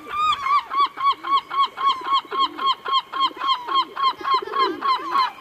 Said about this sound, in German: Auch der Seevogel des Jahres ist gekürt. Dieser Titel geht an die Lachmöwe. Und so klingt sie.